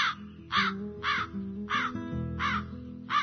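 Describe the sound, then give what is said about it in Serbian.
Eurasian magpies chattering from flocks gathered on haystacks: six harsh, rattling bursts spaced at a fairly even rhythm, each a loud scratchy chatter with short gaps between. “Svrake, koje u jatima zaposedaju skladove, često su zvučna međa i granica između dva poseda.”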